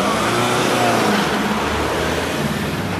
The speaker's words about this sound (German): Der schwarze BMW darf weiterfahren, rollt motorröhrend die 300 Meter bis zum Goldenen Löwen.